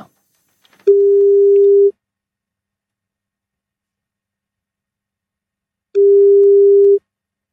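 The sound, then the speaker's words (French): Telephone line tone while a call is being placed: two long, steady, mid-pitched beeps about five seconds apart with silence between, alone and without any talk. “nous allons maintenant passer un petit coup de fil à un auditeur d'RTL”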